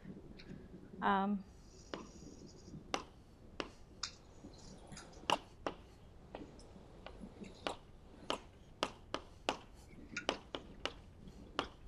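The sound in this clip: Light tapping and clicking of writing on a board during a lecture: many sharp, irregular taps, fairly faint, with a brief squeak near the start.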